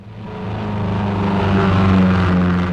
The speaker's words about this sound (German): Das war das Auto.